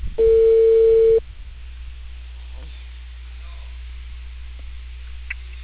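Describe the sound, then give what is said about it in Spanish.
A telephone ringback tone plays during a call to a client: one steady mid-pitched beep lasting about a second, followed by a low, constant line hum. “Hace un rato que estoy llamando a mi cliente.”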